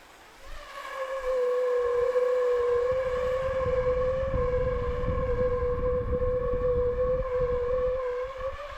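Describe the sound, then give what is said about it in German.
A gas burner turned flame-up inside a plastic tube about 50 cm long and 5 cm wide produces a steady, humming mid-pitched tone. The tone swells in and then holds evenly over the low roar of the flame. “drehe ich meinen Brenner so um, dass die Flamme genau nach oben zeigt und stülpe dann ein Rohr drüber, zum Beispiel ein Kunststoffrohr mit etwa 50 cm Länge und 5 cm Durchmesser.”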